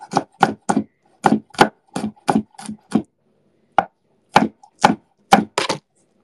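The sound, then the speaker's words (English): A dull knife chops minced garlic in many sharp, dry knocks, delivered in quick uneven bursts with a short pause partway through and silence between strikes. “More minced garlic never hurt anybody.”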